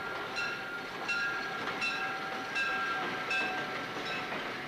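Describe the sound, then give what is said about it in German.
A train rolls on the rails as it brakes, with a thin steady high whine and rhythmic clacks repeating at an even pace over a dull rumble, moderately quiet and without voices. “Das Licht flackert und der Zug geht auf einmal in die Bremsen.”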